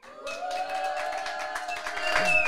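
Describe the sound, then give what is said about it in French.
A small studio audience cheers and makes noise on request, a steady crowd din with a few whistle-like tones that runs the whole clip and grows slightly louder near the end. “les Capiens et Capiennes sont venus en petit comité pour assister à l'émission. Alors petit public, est-ce que vous pouvez faire un peu de bruit qu'on vous entende ?”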